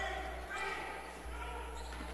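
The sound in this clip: A basketball dribbled on a court during a game, with steady bounces blending into constant court noise and voices.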